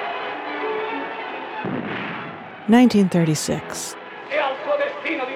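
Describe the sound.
Artillery and gunfire from the fascist attack in the Battle for Madrid in 1936: a few heavy blasts and sharp bursts break through a rough, constant noise, with voices mixed in around them.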